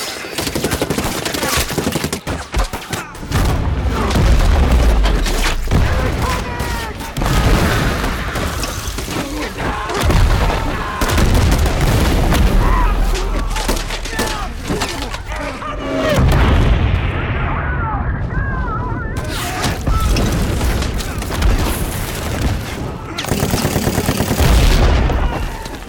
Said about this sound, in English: the entire battle had to be choreographed both on camera and off camera as to what was going on, and keep the action moving the whole time, through the use of sound.